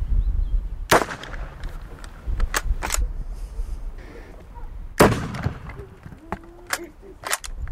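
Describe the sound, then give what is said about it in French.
Blank cartridges fired as gunshots during a mock battle: several sharp, cracking reports at irregular intervals, two of them much louder than the rest, over a low, quiet background. “Et là, vous avez tiré que des balles à blanc ? C'est des balles à blanc, oui.”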